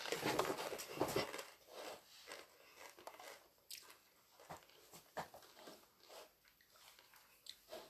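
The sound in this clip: Someone chewing food: a quiet, irregular run of many soft crunches, clicks and wet mouth sounds, heard alone without talk.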